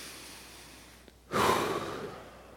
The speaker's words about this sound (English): on the count of three, we're all going to take a deep breath together. Not just me, together, okay? One, two, three.